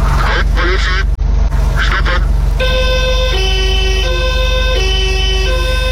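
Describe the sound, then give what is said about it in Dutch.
Siren of an old 1979 police Porsche 911 sounds loudly over a steady engine rumble, its tone starting partway through and alternating between pitches. “Dat is het geluid van de oude politie Porsche 911.”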